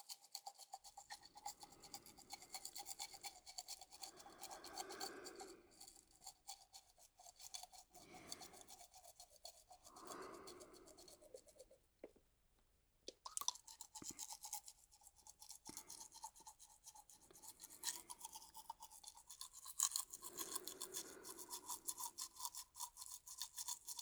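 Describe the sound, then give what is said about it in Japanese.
A finger toothbrush scrubs a boy's teeth in quiet, rapid, bristly rasping strokes that come in repeated bursts, with a short pause near the middle. “この指につける歯ブラシで歯を磨いてあげるからね。”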